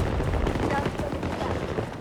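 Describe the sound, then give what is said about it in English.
An MP9 submachine gun fires in a video game, loud rapid bursts of shots following one another with little pause. “I'm shooting the MP9. I have to get pretty close. Otherwise, I'm not going to do any damage.”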